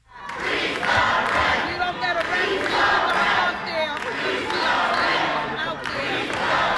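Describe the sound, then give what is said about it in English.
Crowd of tenants at a rent board meeting chanting a short rent-freeze slogan, many loud voices repeating it in a steady, rhythmic cadence with overlapping shouts throughout. “And in case you can't make that out, that is freeze the rent, freeze the rent.”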